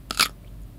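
A five-year-old child bites into a crisp cucumber, making a couple of short, sharp crunches close together near the start, followed by quiet.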